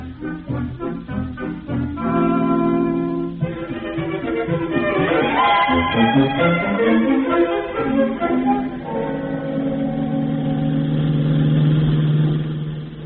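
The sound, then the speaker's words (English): A taxi cab engine drives along, a continuous mid-pitched motor drone whose pitch climbs and shifts as it accelerates, then settles into a steady run that fades slightly at the end. “We'll take a cab, and I'll give you the information as we drive along.”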